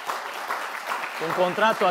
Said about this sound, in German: Den Saal füllen vor allem ausgesuchte Parteianhänger, viele sehr modisch gekleidet, die Di Maios Ausführungen immer wieder mit Beifall unterbrechen.